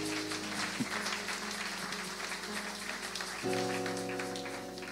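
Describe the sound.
A church audience applauding, a faint, even wash of clapping with sustained musical tones underneath that shift to a fuller chord near the end.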